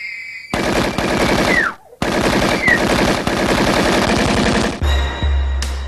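Rapid automatic gunfire rattles in two long, loud bursts of tightly spaced shots, separated by a short break.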